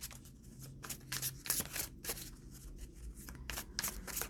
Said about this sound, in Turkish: Size de şuradan tekrar bir kart seçeyim.